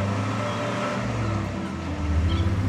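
A car driving off and racing up a lane, heard as a continuous low engine rumble with broad road noise that holds steady and swells slightly toward the end.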